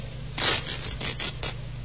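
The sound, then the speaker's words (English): Fabric tearing as the lining of a raincoat is ripped open, a few rough rasping tears in quick succession, fairly loud and with no voices. “Every other raincoat in the building is accounted for. Not a mark on it. Nothing. Yeah, try ripping the lining,”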